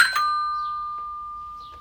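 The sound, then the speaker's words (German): A two-tone doorbell chime rung at the door of a residential house holding a comic archive in Fürth: a quick ding, then a clear, sustained ringing tone that slowly fades, with nothing else heard. “Und jetzt klingeln wir hier mal beim Comic-Archiv in Fürth.”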